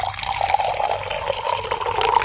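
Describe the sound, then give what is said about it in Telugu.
Water is poured from a bottle into a glass, about 100 grams weighed out for a simple temperature experiment, making a steady, continuous trickling splash that lasts throughout. “ఈ నీళ్లు గ్లాసులో పోస్తున్నాను.”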